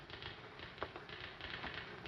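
Typewriter keys clatter as someone types out a bad review, a faint, steady stream of many rapid keystrokes with a slightly sharper strike now and then.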